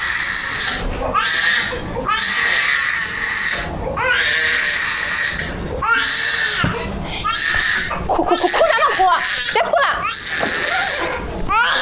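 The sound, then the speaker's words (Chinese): Child crying loudly in repeated wailing bursts, some cries pitched high and shrill, with adult voices talking over and between them. “别哭了，别 哭了！”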